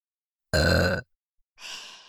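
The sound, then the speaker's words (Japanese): A single voiced burp lasts about half a second and is low and throaty. A soft breathy exhale follows after a short pause. “皆さん、順番にお別れのゲップをしましょう。”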